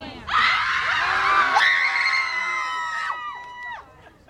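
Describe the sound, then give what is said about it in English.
A protest crowd screams and wails in loud, sustained, high-pitched cries. Several voices overlap and hold their pitch before breaking off near the end. “Let's go real quick and listen to the screaming and the wailing and the gnashing of the teeth, shall we?”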